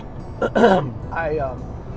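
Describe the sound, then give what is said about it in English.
Throat clearing caused by phlegm: a few short, rough, gravelly rasps close together, followed by a softer, lower rumble. “I apologize. I have got some phlegm in my throat, and I am so sorry.”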